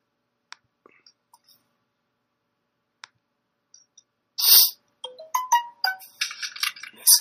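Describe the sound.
An Android phone plays a notification sound: a few faint scattered clicks, then a loud burst followed by a run of short, bright tonal notes.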